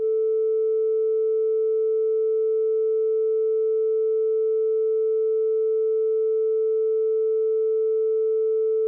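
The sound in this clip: A pure sine test tone in the middle of the audible range: a single steady mid-pitched note held loud and unchanging for about nine seconds, alone with no other sound.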